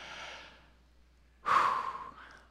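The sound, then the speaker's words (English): A person takes a deep breath, heard as a soft airy breath sound followed by a louder, fuller breath that trails off slowly. No talking. “invite us to all take one deep breath. Can you do that with me?”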